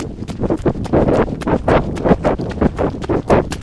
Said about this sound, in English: Look at all those puddles up there. I'm so desperate to run into them. Okay. Okay. Okay, here I go, here I go.